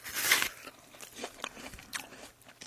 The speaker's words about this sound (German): Ich muss jetzt noch mal kurz einen Apfel essen. Moment mal.